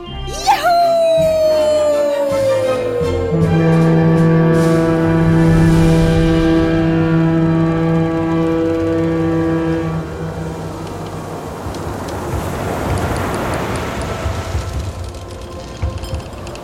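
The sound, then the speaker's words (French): A steamship horn sounds from the passenger liner Victoria as it leaves Brindisi for Egypt. It gives one long, deep, loud blast whose pitch slides down at the start and holds for about ten seconds, then a broad rushing wash of sea follows. “Tout au sud, à Brindisi, elle embarque à bord du paquebot Victoria, cap sur l'Égypte.”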